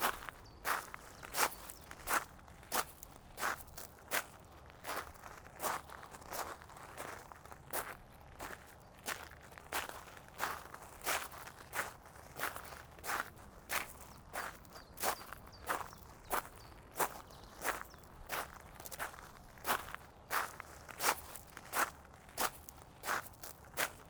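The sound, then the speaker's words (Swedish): Footsteps walk along a path in a park near a castle and pond, with many steady, evenly spaced steps and light crunching all the way through. “Sväng nu rakt höger i korsningen och börja gå i riktning tillbaka mot slottet.”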